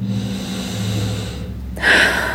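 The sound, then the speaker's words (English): A big, deep breath drawn in near the end, a single broad, airy swell of sound over a low, steady background hum. “Big, deep breath.”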